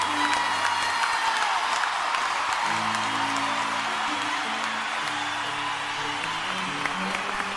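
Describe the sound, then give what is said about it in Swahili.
Congregation at a church service applauding in praise of Jesus Christ, a dense, steady wash of clapping that holds at an even loudness throughout. “Hayo makofi ni mazuri kwangu mimi na kwa rafiki yangu Obama. Lakini kwa Yesu bado. Piga makofi ya Yesu Kristo ali hai.”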